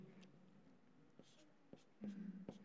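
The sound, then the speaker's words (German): Faint handwriting as a teacher writes a word down during a Bible lesson: soft, intermittent scratching strokes and a few light taps of the writing tool, very quiet throughout. “Ich schreibe das mal hier hin ein. Meine Schrift könnt ihr wahrscheinlich eh nicht lesen”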